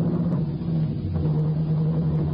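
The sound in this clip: A car engine drones steadily as the vehicle drives off, a low, even rumble with a humming tone that stays at a constant level.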